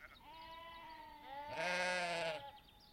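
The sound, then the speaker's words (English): A lamb bleats on a farm during lambing season, one long, wavering, nasal cry that swells louder midway before fading. It is fairly faint and heard alone. “From what I can see, the lambs are looking pretty big and fat. They still want their mummies, though.”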